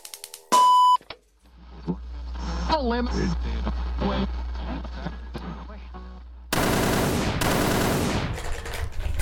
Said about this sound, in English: I heard shots. Oh, were these they? What are you doing? Sound effects.